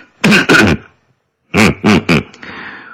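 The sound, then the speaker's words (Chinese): A factory director clears his throat in a voiced, vocalized way: a pair of short grunting pulses, a pause, then three more, trailing into faint noise. “厂长乌里吉咳了咳嗓子说”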